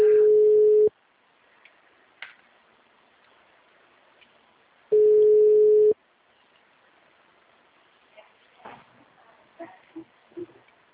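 Telephone ringback tone on an outgoing call: two loud, steady, mid-pitched beeps, each about one second long and about four seconds apart, with quiet line noise between them, followed by a few faint clicks and rustles.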